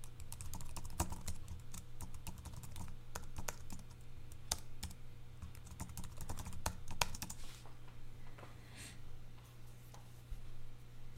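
Typing on a computer keyboard while logging in to an online account: many quick, irregular keystroke clicks continue throughout over a low, steady hum.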